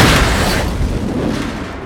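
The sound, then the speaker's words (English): A loud explosive boom blasts open the back doors of a 1960s Ford Transit van: one broad burst at the very start that slowly decays into a long rumbling tail. “The back doors of the van are blown open.”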